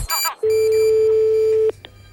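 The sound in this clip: Telephone tones as a call is placed during a radio phone-in segment. A short, harmonically rich tone burst comes first, then a single long, steady mid-pitched tone lasting over a second, followed by near quiet.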